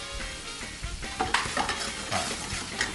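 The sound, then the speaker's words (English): Pan-cooked food with pepper, green onion and cilantro being stirred and tossed, a steady sizzling fry broken by a few scraping, clattering knocks, with no talk. “Let's hit it with a little pepper here. Fantastic. Perfection. Some green onion. And some cilantro. Now we're going to toss that up.”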